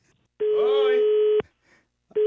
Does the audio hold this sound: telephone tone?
yes